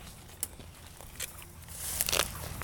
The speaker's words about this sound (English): I'm going to slowly walk back out of the field.